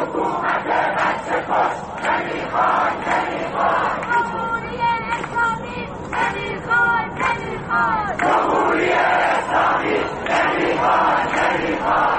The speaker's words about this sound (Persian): مردمی که در گذرگاه ها علیه دیکتاتوری شعار می دهند و حکومت را به کشتار کودکان متهم می کنند.